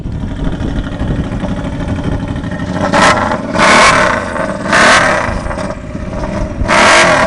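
Car engine revving through a race pipe three-quarter exhaust system: a loud, steady rumbling idle broken by a few sharp, raspy revs that swell and drop back.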